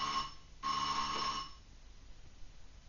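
A telephone rings in two bursts, a short bell-like ring and then a longer one, before fading into a faint background hiss.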